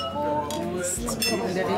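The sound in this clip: Glasses clink together in a toast over a served ham-and-cheese omelette at an old oil mill by a meadow: bright, ringing chinks come in quick succession, with people talking throughout.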